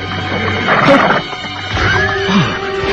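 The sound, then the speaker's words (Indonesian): Loud, harsh cries and grunts from a wild boar come in two rough bursts over a low, rumbling background. “Seekor babi hutan. Kurang ajar. Kupikir suara apa.”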